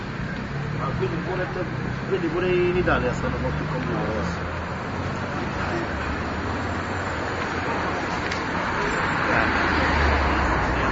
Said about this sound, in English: If you listen to the sound of the street, you can drive crossed into the little Italy section.